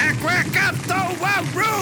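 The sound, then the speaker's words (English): A voice imitates a comic-book sound of a cache of soul blades being destroyed. It uses a rapid run of squawky, nasal, quack-like syllables that rise and fall in quick bursts, spoken loudly and with no other sound. “It's the sound of Thor destroying a cache of soul blades.”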